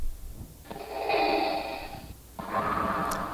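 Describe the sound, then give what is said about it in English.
A voice imitating a menacing heavy breath: two raspy, voiced breaths, the first long and drawn out, the second shorter, with a short gap between them. They are moderately loud, with no other talking. “And we do hope that God's breath sounds a little better than that. It's a little less menacing, right?”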